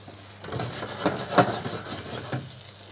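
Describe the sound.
Butter being stirred into risotto while fish fries in a pan: a steady soft sizzle carries throughout, with a few light scraping stirs rising above it.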